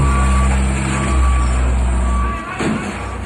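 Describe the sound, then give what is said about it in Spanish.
Reversing beeps from a huge backhoe excavator smashing through the front wall of a bank, sounding as a repeating high electronic beep over a loud, low diesel rumble, with a rough burst of noise near the end. “Un vecino grabó el momento en el que la grúa se puso a romper la pared y vamos a escucharlo.”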